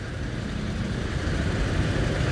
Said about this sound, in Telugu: ఇప్పుడు ట్రాఫిక్ కూడా వస్తున్నాడు